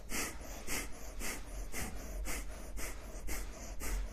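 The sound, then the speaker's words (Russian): Rapid rhythmic breathing during a breathing exercise: quick, forceful breaths at an even pace of about two per second, soft and airy, continuing steadily with no talk. “2 минуты дышим, поехали.”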